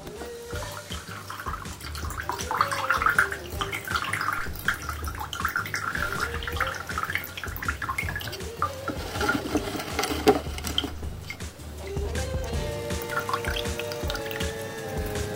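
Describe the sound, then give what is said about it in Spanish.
A mixture of water and yerba draining through a filter into a container, with soft continuous dripping and trickling under light background music. “Ponemos la mezcla sobre el filtro. Y dejamos que se filtre.”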